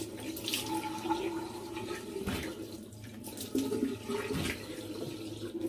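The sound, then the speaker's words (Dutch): Running tap water splashes as a face is rinsed with lukewarm water, a steady rushing flow with shifting splashes, fairly faint and with no talk. “Dus niet te koud, niet te warm. Even afspoelen”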